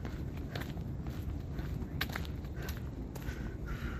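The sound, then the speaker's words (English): Footsteps of someone walking ahead come as a steady run of soft steps, heard through a constant wash of background noise with no talk. “Somebody walking in front of me. I walk back a little bit, let them get some distance, and hopefully they'll turn.”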